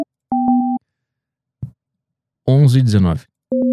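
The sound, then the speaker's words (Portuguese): A telephone ringing out on a call to a bar in Iceland: a steady two-note ringback tone, a short click, a brief burst of voice, then the tone starts again. “Tá ligando pra um bar na Islândia agora.”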